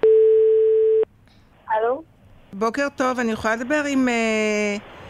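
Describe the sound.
Telephone line tone while a phone call is placed: a single steady mid-pitched tone holds for about a second and stops abruptly, then people talk.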